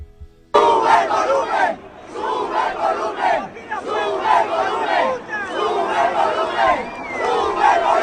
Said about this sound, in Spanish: Coreaban sube el volumen entre canción y canción el público de la mitad posterior de la pista